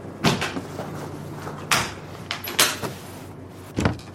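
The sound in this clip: A large wheeled chest holding a record player and records is opened aboard a cruise ship, giving a few wooden clunks and creaks spaced irregularly, with soft rustling between them.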